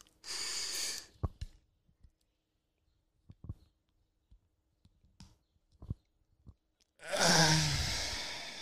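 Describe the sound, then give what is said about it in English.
An asthma inhaler is shaken and then inhaled from: a burst of breathy hiss, scattered soft clicks and small rattles through a quiet stretch, then a long, loud, breathy inhalation at the end. “Inhaler. I mean, if you have asthma, come on, dude. You can't go anywhere without this thing. I'll shake it up right now and suck the fuck out of it.”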